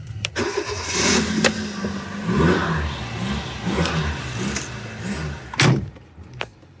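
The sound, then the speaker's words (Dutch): A restored classic 4x4 car with a very short first gear cranks, starts and pulls away. The engine rumbles with revving swells, and a few sharp mechanical clicks and knocks stand out. “We gaan rijden en starten.”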